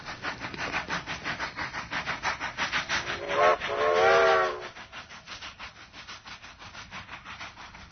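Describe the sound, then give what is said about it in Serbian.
A train passing without stopping gives a steady rhythmic clacking of wheels. Midway through, a brief, loud, whistle-like tone rises over it, then the even clatter continues. “Voz koji se nije zaustavio.”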